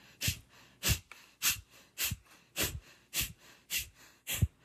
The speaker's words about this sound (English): that practice of pumping the air out, engaging your abdominals to forcefully exhale and let the inhale come in naturally, and do that sort of quickly. So it sounds something like this.